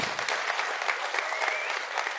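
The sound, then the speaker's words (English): Congregation applause fills a church service as members honour newly baptized people. The clapping is continuous and even, a dense crackling patter that holds at a steady level for the whole stretch. “can we just give them a round of applause and just bless them?”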